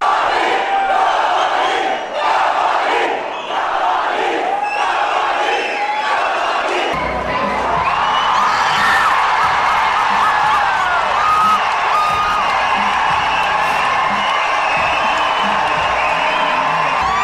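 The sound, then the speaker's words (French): Indian cinema audience cheering wildly as the film credits begin, a loud continuous roar of shouting, whooping and yelling that swells into a denser, fuller din partway through. “Attention aux oreilles, ça c'était bien le public indien dans la salle de cinéma quand le générique y commence.”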